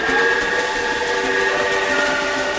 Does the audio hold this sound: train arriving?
yes